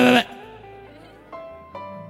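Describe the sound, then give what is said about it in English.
A goat bleating: a loud, bright, harmonic bleat at the start that trails off, followed by two shorter, quieter wavering calls. “And the goat cannot bark. He tried all the antics. He's still bleating.”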